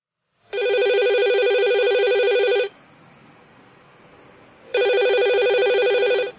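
A telephone rings for an incoming call: two long, loud, steady electronic ring bursts separated by a short pause, with no voices.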